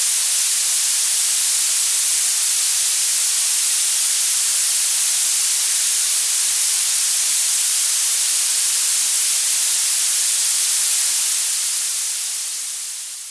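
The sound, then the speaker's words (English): Violet noise, a coloured noise that is even hissier than white noise, plays as a loud, steady, bright hiss weighted toward the highest treble. It stays constant, then fades out briefly at the end. “And violet, which, if there's such a word, is even hissier.”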